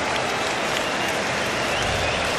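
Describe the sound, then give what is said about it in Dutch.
A football crowd at a Standard Liège–Juventus preseason friendly applauds a goal attempt with steady, dense clapping that stays even and fairly soft throughout. “Wel applaus vanwege Euvraar.”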